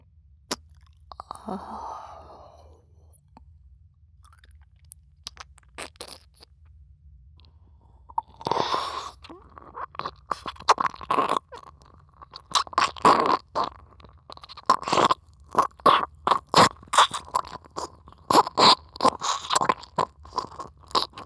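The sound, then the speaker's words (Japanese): Wet licking and mouth sounds from an ASMR roleplay of applying insulating gel by mouth. A few faint smacks come first, then dense, sharp wet clicks and slurps follow in quick irregular succession, with no talk. “まだジェルの量が足りませんのでさらに舐めさせていただきます。”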